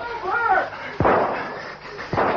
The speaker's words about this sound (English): That man, he's shooting. Revolver. He'll never hit us.